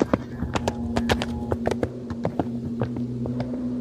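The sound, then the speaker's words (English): Horse hooves clip-clop as a rider rides off on a horse loaded with beaver pelts, many sharp hoof strikes in a steady, uneven rhythm over a low continuous hum. “What's happening right now is that Mr. Pilcher is about to ride away on Molly with all our beaver pelts and wearing my pants.”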